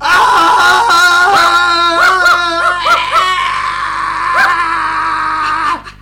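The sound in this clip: A man screams in pain after a dog bite. The loud, drawn-out cry is harsh and wailing, its pitch wavering throughout, and it lasts about six seconds before cutting off abruptly.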